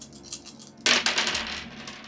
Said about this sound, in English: Go ahead and roll, I think it's a 5 charge, so roll 5 dice.